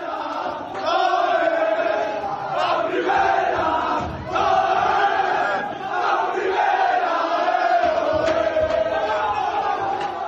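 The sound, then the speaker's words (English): Cadiz football players sing together in a loud group chant, celebrating the club's promotion to Spain's first division. Many raised voices carry a rhythmic, shouted melody with brief dips in volume between phrases. “That was the sound of the Cadiz players singing "We're going to the first division" as they gathered together to watch Real Zaragoza lose to Real Oviedo on Sunday night,”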